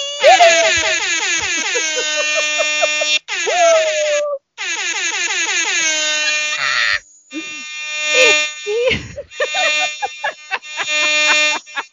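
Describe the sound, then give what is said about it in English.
Klaxon horn sound effect: loud, brassy blasts repeated several times, separated by short breaks, with some blasts bending in pitch and a rougher, broken stretch in the second half. “We got the klaxon in.”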